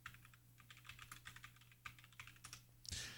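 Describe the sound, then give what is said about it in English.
Faint, quick typing on a computer keyboard enters a name. Many light keystrokes patter in an uneven rhythm, ending with a louder clack. “let me type his name in”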